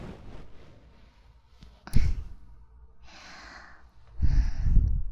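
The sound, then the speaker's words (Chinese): Strained, struggling breathing through a stocking pulled over the mouth and nose: a few heavy, noisy breaths, with a sharp intake followed by longer rasping inhales and exhales between quieter pauses. “真不错，看得出来你在拼命呼吸呢。”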